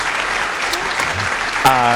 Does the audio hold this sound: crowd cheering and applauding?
yes